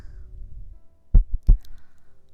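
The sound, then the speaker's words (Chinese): A heartbeat: a few deep, low thuds grouped close together in the middle, loud over a faint low rumble, with quiet before and after. “只有姐姐的心跳陪着你了。”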